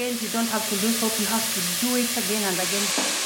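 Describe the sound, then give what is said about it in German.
Whey sizzles with Parmesan rinds in a pot, giving a steady bright hiss with faint stirring and a tonal hum running beneath it. “Die kommt jetzt zusammen mit Parmesanrinden in einen Topf.”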